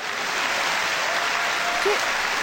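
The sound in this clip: Steady, dense applause plays as a sound effect on a talk-show-style set with no real audience. The clapping holds at an even level for the whole stretch.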